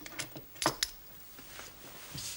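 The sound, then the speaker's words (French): A metal hotel room key jingles faintly as it is handed over, with two sharper clinks near the middle and soft rattles before and after. “Voici votre clé. Chambre 51.”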